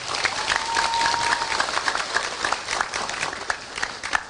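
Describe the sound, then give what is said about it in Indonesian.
Audience applause at a talk on Islamic boarding school education in Indonesia: dense clapping from many hands that runs steadily through the whole stretch, loud and sustained without a break. “Tepuk tangan untuk Indonesia.”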